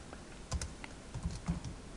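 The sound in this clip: Keyboard typing while code is written on a computer: a short, quiet burst of a few soft key clicks, with no voices.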